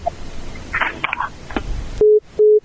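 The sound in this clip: Busy tone from a dropped phone call on a call-in line: two steady, mid-pitched electronic beeps with a pause between them, following a stretch of faint line noise and crackle.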